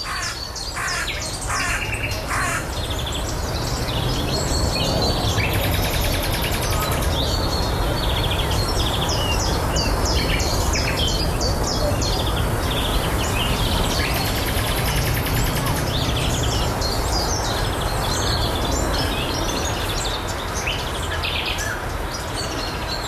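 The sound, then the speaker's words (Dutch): A common nightingale sings on the shore of a lake, delivering loud, varied phrases of whistles, rapid trills and sharp chirps that run continuously from start to finish. “Ja, de eerste nachtegaal. Opgenomen aan de Gooimeerkust te Huizen.”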